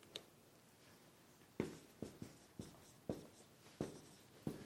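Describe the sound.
Writing by hand, heard as several short scratchy strokes and taps spaced irregularly, faint against a quiet hiss.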